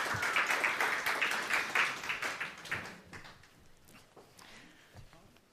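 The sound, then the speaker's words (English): Audience applause welcomes a guest speaker at a morning community care gathering. Dense, loud clapping fills the first few seconds, then thins into scattered, fading claps. “So I'd like to welcome Alison to come, and we're going to have a bit of a chat this morning. So let's give her a hand.”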